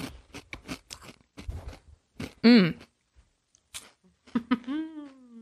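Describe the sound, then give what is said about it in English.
Crisp crunching as a crunchy corn snack is bitten and chewed, with quick, sharp crackles. Voices and a loud, drawn-out vocal exclamation are heard alongside the crunching. “This tastes like, oh my God, this is good too. But it's not a bugle because it doesn't have a hole.”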